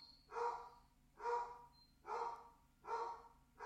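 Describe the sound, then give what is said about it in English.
A dog barking steadily: a few evenly spaced, faint barks repeat at a regular, almost mechanical rhythm, alone with no voices. “That dog is barking so consistently that it sounds like an alarm.”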